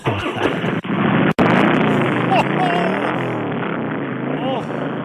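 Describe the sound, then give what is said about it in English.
A 2002 Harley-Davidson Softail Deuce motorcycle engine runs with a loud, steady, throbbing rumble and rapid pulsing beats, dipping briefly twice near the start before holding an even roar. “First, we're going to fire up the 2002 Softail Deuce, which is the hubby's bike.”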